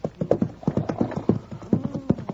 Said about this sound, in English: I'll tie my horse and cart up behind